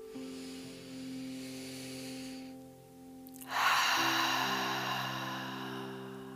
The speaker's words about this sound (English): One more time, deep inhale.